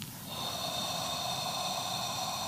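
Slow inhalation through the nose, a soft, continuous airy hiss that rises quickly and then holds steady for over two seconds, quiet and alone.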